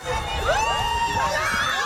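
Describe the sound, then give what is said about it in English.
Cheering and shouting from a crowd of over 150 university students at a community inter-house sports day in St. John's, a dense, lively wash of overlapping excited voices, steady and loud throughout. “That's the sound of over 150 students celebrating sports and community in St. John's, brought together by Memorial University's Black Students Association”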